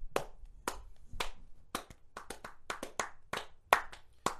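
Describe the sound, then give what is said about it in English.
Sharp hand claps after a song performance, a series of about a dozen crisp, separate slaps spaced irregularly, some quick pairs, moderately loud with quiet gaps between them. “Hey, man, I'm just going to give a quick clap.”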